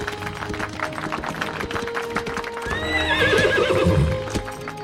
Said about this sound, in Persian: وای، این اسبا واقعا دارن نمایش میدن.